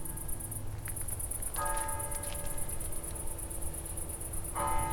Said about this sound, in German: Man hört auch Grillen intensiver.